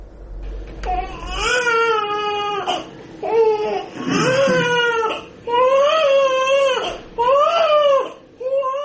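A newborn baby crying: repeated loud, wavering wails in short bursts separated by brief gasping pauses.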